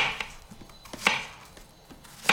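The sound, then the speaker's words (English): Softened plantain mashed with the bottom of a bottle gives a few soft, dull thuds and squelchy knocks at irregular intervals. They are faint, and no one speaks. “Then comes the mashing, which you can do with the bottom of a bottle.”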